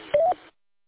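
Courtesy tone from a ham radio repeater: one short, faint electronic beep lasting about a fifth of a second, followed by silence.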